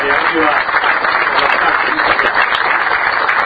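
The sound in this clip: Dense, steady applause fills the whole stretch at a subsidy-awarding event, honoring the Miguel de Güemes cooperative from Marcos Paz, Argentina.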